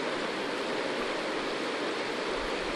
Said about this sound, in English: I think you can hear the water behind me. It's just gorgeous. Gorgeous canyon.